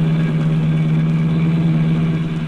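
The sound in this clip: A car engine drones steadily while the car is driven, a continuous low hum that holds an even loudness throughout with no talk.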